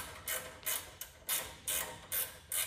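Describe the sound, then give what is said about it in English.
A ratchet clicks while fittings are tightened during a race car radiator replacement. It gives many short, rasping bursts in a steady, evenly spaced rhythm, fairly quiet, with no talking. “Now, what we're gonna do now is we're going to tighten these,”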